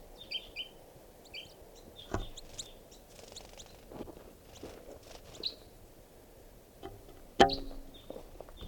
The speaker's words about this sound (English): this is one of the birds. It's a juvenile.